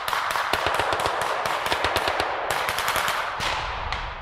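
Automatic gunfire from armed men shooting in a combat video game, with many rapid, sharp cracks in dense bursts over a constant loud roar.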